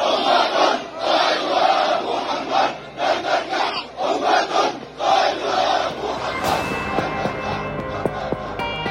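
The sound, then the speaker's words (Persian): Many voices chant 'Labbayk ya Rasul Allah' in unison in the Al-Aqsa Mosque courtyards in Jerusalem, in loud, repeated rhythmic pulses. The chant breaks off near the end and gives way to a steady tonal sound. “این صدای سردادن شعار لبیک یا رسول الله است در صحنهای مسجد الاقصا در قدس شریف.”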